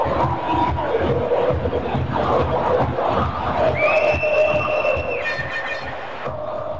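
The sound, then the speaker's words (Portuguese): Brazilian football supporters in a stadium during a match against Venezuela, a dense, loud crowd roar of shouting and cheering voices that stays steady throughout with no clear breaks. “Vamos ver a torcida brasileira.”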